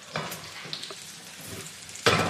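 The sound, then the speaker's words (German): Oat patties frying in butter and olive oil: a soft, steady sizzle with scattered small crackles, rising to a louder hissing burst near the end. “Ich habe irgendwie das Gefühl, dass wir die jetzt so sanft anbraten. Ich habe jetzt ein bisschen Olivenöl noch zur Butter getan, damit es richtig fettig wird.”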